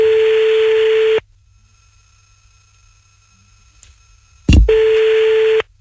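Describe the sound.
Ringback tone of an outgoing telephone call ringing out: two steady, mid-pitched buzzing tones, the first about a second long, then a long silence broken by a short low thump just before the second tone sounds.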